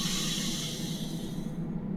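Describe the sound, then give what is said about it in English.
A sniff of air drawn in through the nose during a guided breathing exercise, heard as a soft, steady, breathy hiss that lasts about a second and a half before fading out. “Take one more little sniff of air through the nose. And exhale out the mouth.”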